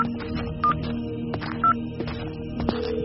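Keypad tones from a mobile phone being dialed: two short, clear beeps about a second apart, set against a steady low background hum.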